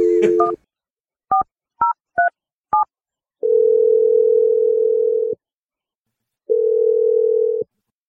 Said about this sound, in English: Let's dial this number and see what she has to say.